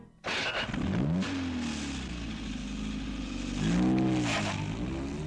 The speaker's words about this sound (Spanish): Después se colocó ante el volante y puso en marcha el motor.